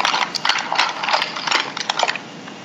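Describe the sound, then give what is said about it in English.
A tape measure's metal blade is pulled out to measure an object, giving a continuous rattling, ratchet-like stream of rapid metallic clicks that stays fairly loud throughout. “actually, it's a good thing I have my tape measure here”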